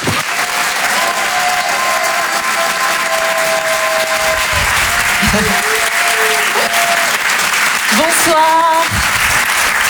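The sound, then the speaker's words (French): Audience applause for a performer being introduced on stage at a comedy show: loud, dense, steady clapping that fills the whole clip without a break. “On va l'encourager et faire un maximum de bruit, s'il vous plaît, pour Hélène Cilo.”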